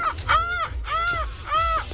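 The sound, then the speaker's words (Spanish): Seagull cries ring out in three loud, harsh calls, each arching up then down in pitch, with a short pause between them. “Y un grito de gaviota por la celebración.”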